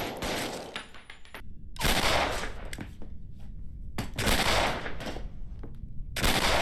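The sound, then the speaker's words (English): Film gunshots in a hitman scene, with Ryan Gosling's gun sound-edited to be louder than the others: several heavy, harsh blasts, each trailing into a noisy, rumbling decay before the next. “And Gosling's gun has been sound edited to sound louder than other guns. You know, most notable in the scene where the hitman takes out the wife, and then Gosling takes out the hitman.”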